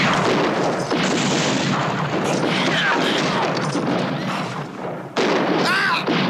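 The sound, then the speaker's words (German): A gunshot fired at close range into a man's back during a shootout in a radio drama, set in dense, roaring, booming noise that dips briefly and then bursts back loudly near the end. “Als Tom versucht, sein Gewehr wieder durchzuladen, schießt ihm Garrett aus kurzer Entfernung in den Rücken.”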